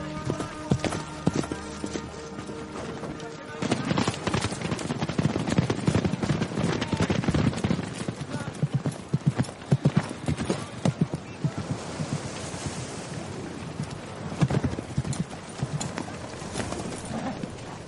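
Hooves clip-clop as a rider on horseback moves beside a huge line of people leaving a city on foot in a medieval setting, a loud, steady clatter of many rapid hoof beats lasting throughout.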